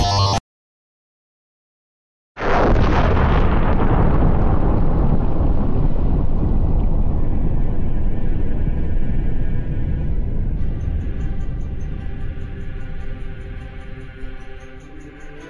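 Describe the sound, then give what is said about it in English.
A single massive explosion bursts in suddenly after a brief silence, then rolls on as a deep, thundering rumble that slowly fades over many seconds. “Yeah, it explodes tonight.”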